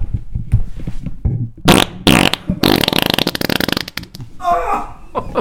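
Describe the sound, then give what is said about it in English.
Loud, buzzy farts in several rattling bursts of uneven length, some sputtering in quick pulses, with short quiet gaps between them. “Buff beef. Cut cheese. My man just soiled himself.”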